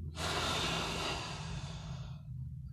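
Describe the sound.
A person breathing in deeply during a guided grounding breath exercise: one long, steady, airy inhale lasting about two seconds, fairly loud and alone with no speech.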